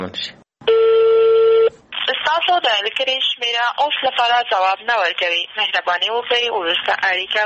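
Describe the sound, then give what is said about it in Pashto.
A ringback tone from a call to the Maidan Wardak provincial governor's phone number: a single steady tone about a second long, followed by a voice speaking continuously. “وروسته مو بیا هم تر شل واره زیاته اړیکه ونیوله خو ځواب یې ورنه کړ. دا د میدان وردګو ولایت د والي جنرال مظفر الدین یمین شمیره ده.”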